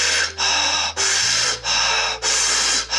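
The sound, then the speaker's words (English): Deep breaths during a breathing exercise, four long, airy inhalations in a quick, steady rhythm, each separated by a brief dip, fairly loud and with no speech. “So it's gonna sound like this. So we're gonna be inhaling.”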